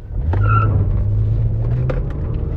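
A car drives past with a loud, steady, low engine rumble and a droning hum that holds throughout.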